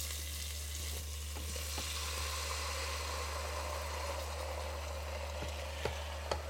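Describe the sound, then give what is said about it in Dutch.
Meat sizzles as it fries with onion in lightly browned butter: a steady, even hiss continues throughout over a low constant hum, with a few faint clicks and small pops. “Even wachten totdat de boter licht bruin is en dan mag de ajuin erbij. Ja, nu mag het vlees erbij.”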